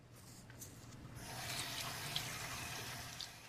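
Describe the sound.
Running tap water pours into a sink as a towel is wetted under the stream: a steady, broad splashing rush that swells a little partway through and continues to the end.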